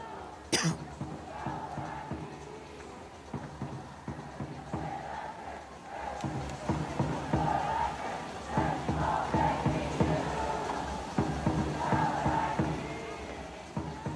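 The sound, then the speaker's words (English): Angel City FC soccer fans in a stadium cheer forward Kristen Press on her return after surgery. The crowd noise swells and falls, with many scattered shouts and whoops rising through the roar. “Angel City's beloved forward Kristen Press is back with the team after surgery. She was at the game last week and was welcomed very warmly by the fans.”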